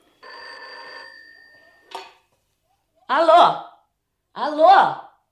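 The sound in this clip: An old telephone bell rings once in a bright, trilling burst of about a second. A click follows as the receiver is lifted, then a voice speaks twice.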